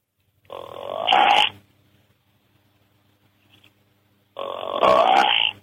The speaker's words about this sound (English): And bucks will do this. It's like, come on. You know, they're pleading. And it sounds like this.